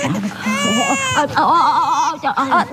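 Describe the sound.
A baby crying in loud, wavering wails, with an adult voice talking alongside.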